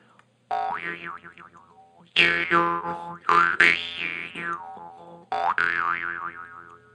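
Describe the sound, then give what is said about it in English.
Twangy jaw harp, its thin metal strip vibrating against the teeth with the mouth as resonator. A few plucked notes ring out as a buzzing drone, their overtones wobbling and warbling as the mouth and tongue change shape. “against your teeth, and your mouth becomes a resonating chamber, for the vibrations of that thin metal strip. So you just put it against your mouth and as you move your mouth around, the sound changes.”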